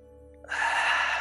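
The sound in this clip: Breath drawn during a mindful breathing exercise, a soft airy rush that begins about halfway through and holds steady to the end, alone with no talk.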